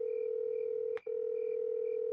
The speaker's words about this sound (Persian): پس پیشنهاد میکنم که این گفتگو رو از دست ندیم، بریم باهاشون تماس بگیریم.